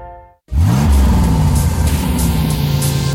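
A Peugeot light commercial vehicle's engine bursts into a loud rev, its pitch surging upward and then settling into a sustained, powerful roar that continues to the end.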